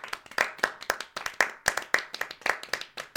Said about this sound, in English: That was the studio audience. I invited a studio audience here.